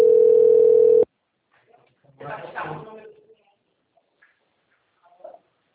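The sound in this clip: Ringback tone of an outgoing telephone call: one steady, mid-pitched tone holds for about a second and then cuts off, followed by faint, muffled voice-like sounds.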